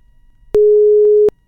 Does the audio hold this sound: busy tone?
yes